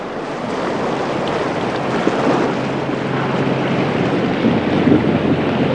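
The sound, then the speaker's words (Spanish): Strong wind and choppy sea around a sailing ship crossing the Great Belt at night, a dense, steady roar of gusts and waves with small splashes and no voices. “A las 10:15, soltadas las amarras, el Elinora surcó rápidamente las aguas del Gran Belt. La noche era oscura. Soplaba una fuerte brisa y el mar estaba algo picado.”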